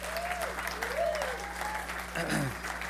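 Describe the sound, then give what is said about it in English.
Church audience applauding after worship: steady clapping with voices calling out over it and a low constant hum underneath. “Man, can we give the Lord a round of applause for just leading us in worship?”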